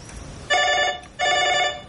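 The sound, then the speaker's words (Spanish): Two rings of a telephone bell in a quiet room in a Spanish social drama, each a bright metallic trill lasting about half a second and separated by a short pause. “Las dos se quedan calladas, esperando a que deje de sonar el teléfono.”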